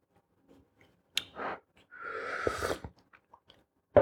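First sip of an organic herbal tea: faint lip and mouth clicks, a short wet slurp, then a longer, louder slurping draw and a few soft clicks after it, with no talking.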